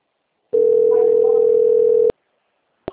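A telephone tone signals an incoming call about a payroll loan: one steady, mid-pitched beep held for about a second and a half, followed by two sharp clicks.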